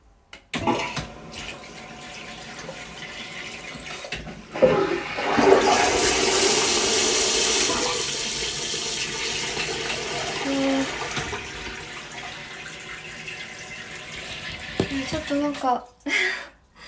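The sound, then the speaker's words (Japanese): A toilet flushing: a loud, long rushing roar of water that swells suddenly and pours on steadily for about eleven seconds before cutting off. “流します”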